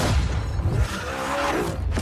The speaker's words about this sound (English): And fast car games like Need for Speed.